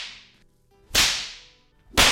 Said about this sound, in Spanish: voy a darme unos azotes, por favor, unos latigazos para que te sientas un poco más tranquila.